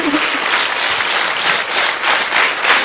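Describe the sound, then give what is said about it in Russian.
Loud, dense applause from a standing audience in a hall in Omsk, greeting a guest with an ovation. A steady, unbroken wash of clapping continues throughout with no voices over it. “Давайте по традиции по-омской мы его встретим бурными овациями. Можно встать? Давайте встанем. Громче можно хлопать. Еще громче.”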